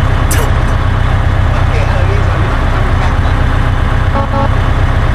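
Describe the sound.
Loud, steady roaring drone of bus engines racing in a video game, a dense rumble with voices talking over it throughout.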